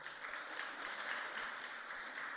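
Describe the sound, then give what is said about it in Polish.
Applause from an audience during a church talk, a steady, dense wash of clapping that holds at an even level for about two seconds. “Wielkie brawa dla Tomka.”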